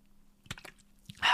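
Drinking and swallowing: a couple of soft gulping clicks over a low hum, then a sudden breathy rush of air at the end.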